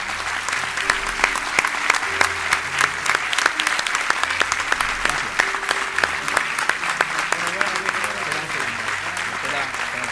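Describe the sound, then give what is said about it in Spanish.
An audience applauds the musicians of three bands at a charity concert, a dense and steady wash of clapping that holds at an even level for the whole stretch. “Pido un aplauso para todos los músicos de las tres bandas que han participado”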